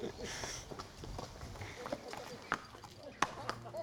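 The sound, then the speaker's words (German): Horse hooves clip-clop as a prince rides his horse across meadows and fields, with a few sharp hoof strikes standing out over a faint, busy background. “Lange ritt der Prinz über Wiesen und Felder und gelangte schließlich in eine felsige, karge Landschaft.”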